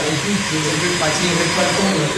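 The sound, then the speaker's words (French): A small vacuum cleaner running with a steady, even motor whine, while people talk over it. “Ah, il y a même un petit aspirateur à l'italien.”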